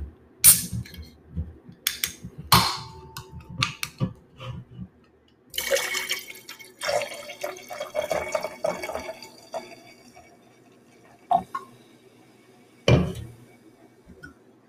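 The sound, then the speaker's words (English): Liquid pouring and splashing as Wild Turkey American Honey and regular Red Bull are mixed into a drink, several separate bursts of pouring and dripping broken by quiet gaps, with no talking. “Now we're going to mix it because I've heard you can only mix this type of wild turkey, American honey, with Red Bull, a regular Red Bull, the dark blue one.”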